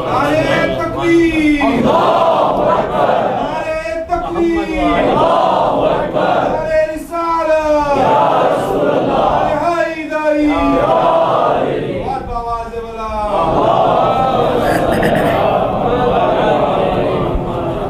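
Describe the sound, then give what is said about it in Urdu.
An audience at a lecture cheers and chants a slogan in unison, loud rhythmic chant phrases repeating several times over a continuous roar of crowd voices. “اب آپ نے واہ واہ کر لی، نعرہ بھی نظر فرما لیا، کچھ سمجھے بھی اس کے بعد کیا ہوگا؟”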